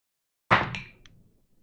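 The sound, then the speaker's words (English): Dice land with a single sharp thud during a tabletop game, followed by a short, fading rattle as they settle. “And then I'm going to make a roll. I'm not going to show the roll for very specific reasons, but I'm going to tell you if he comes back or not.”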